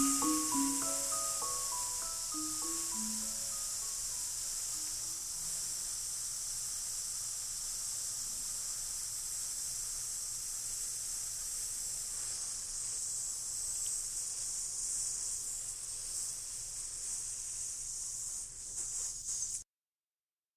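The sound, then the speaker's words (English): A voice imitates a snake's hiss as one long, steady, sibilant hiss lasting about twenty seconds before cutting off abruptly. “when snakes are determining possession, and they're speaking in their snake language, and they want to say, "That's Sean the Snake's cup," which sounds like”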